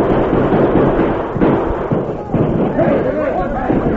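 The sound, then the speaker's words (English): Carbine gunfire in a night shootout on a hillside between soldiers and outlaws: a dense, loud barrage of overlapping shots and thuds runs without pause, with voices mixed into the din. “The alert soldiers responded quickly, firing their hard-hitting carbines at the flashes of the outlaws' guns.”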